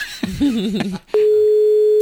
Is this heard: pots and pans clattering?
no